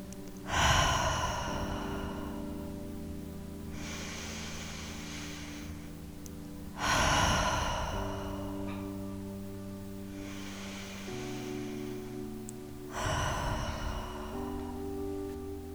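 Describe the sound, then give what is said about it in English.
Three deep cleansing breaths at the close of a meditation, each a slow, airy inhale and exhale, evenly spaced over a soft, sustained musical drone. “We're going to take 3 more cleansing breaths to close out this practice.”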